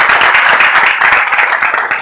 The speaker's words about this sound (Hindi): तालियां बजाओ भैया के लिए।